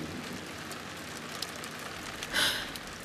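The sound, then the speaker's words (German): Rain patters steadily on a roof as a dense, even hiss of countless drops. A brief, brighter swell of heavier drumming comes near the end. “Der Regen, der erst nachgelassen hatte, plätterte plötzlich aufs Dach wie nach einem Donnerschlag.”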